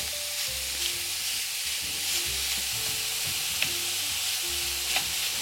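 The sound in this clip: Sizzling minced meat, 350 grams, frying with onions and carrots as a spatula breaks it up and stirs it, a steady crackling hiss throughout with a couple of faint scraping clicks.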